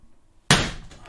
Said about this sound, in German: So, es hat einmal geknallt, das war eine Mücke, Entschuldigung.